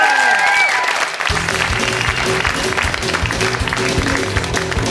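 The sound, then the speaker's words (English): Applause from a live comedy audience at the 1993 Melbourne Comedy Festival, loud and dense at first, quickly joined by music that keeps playing underneath as the clapping continues. “Big round of applause for Rebecca.”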